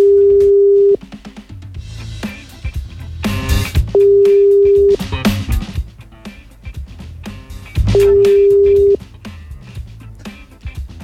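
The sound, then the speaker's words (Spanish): Three steady one-second ringback tones of an outgoing telephone call, placed live on a radio show, each separated by a few seconds of music. “A ver. Estamos llamando.”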